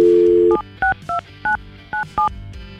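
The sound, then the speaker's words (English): A telephone number dialed on a touch-tone phone: a steady dial tone cuts off, then six short beeping key tones follow in an uneven rhythm, each a brief pure two-note chirp. “we're going to call her, find out her side of the story because he gave us her phone number.”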